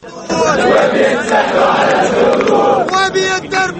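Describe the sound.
A protest crowd in Cairo's Tahrir Square demanding the transitional military administration step down: loud massed voices chanting and shouting in rhythmic bursts, dipping briefly and surging again toward the end.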